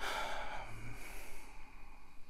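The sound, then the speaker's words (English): A man in Syria takes a deep breath, a soft, airy inhale and exhale heard alone and fairly faint. “takes a deep breath.”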